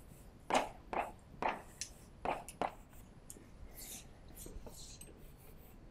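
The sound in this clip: Faint, scratchy writing strokes on a board during a lecture: a few short, sharp strokes in quick succession, then softer, lighter scraping. No one talks.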